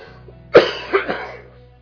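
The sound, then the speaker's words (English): A restrained cough from a speaker who is unwell: one sharp, forceful burst followed by two weaker, throaty bursts close behind it. There is no talk during the coughs. “cough that I have to restrain. I don't feel well today, but thank God for His grace.”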